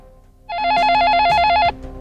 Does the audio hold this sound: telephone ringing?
yes